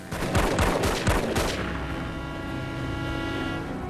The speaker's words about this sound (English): As he escapes on his bike, the thugs fire their weapons at him.